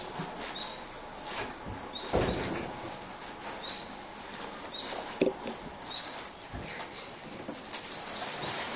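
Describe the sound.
Doors are shut, first at the entrance and then in this room, giving a few dull knocks and scrapes at uneven intervals over a low, steady background.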